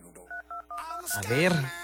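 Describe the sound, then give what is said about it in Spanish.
Touch-tone telephone dialing as a call is placed: a few quick, even electronic beeps in a row, then a voice speaks. “A ver quién nos contesta. Venga, marcando ahora.”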